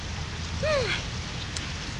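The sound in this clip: Rain falls steadily, a constant soft hiss of drops with a low rumble beneath it and no clear breaks.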